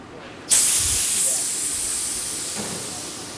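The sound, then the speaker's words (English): Pressurised carbon dioxide at 130 pounds per square inch vents from a fermentation chamber in a high-tech restaurant kitchen. A loud hiss bursts in abruptly, then holds and slowly fades over about three seconds. “That's the sound of 130 pounds per square inch of carbon dioxide releasing from a fermentation chamber.”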